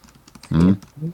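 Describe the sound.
A number being typed into a computer keyboard: a few faint, quick key taps, briefly covered by a short, louder voiced sound in the middle.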